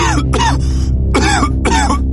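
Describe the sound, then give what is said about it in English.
Coughing during cold and flu season: a few sharp, evenly spaced coughing bursts over a constant loud low background hum, with no speech. “It started with a single cough.”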